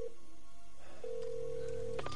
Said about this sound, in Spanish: Coge el móvil y marca un número. Llama y espera.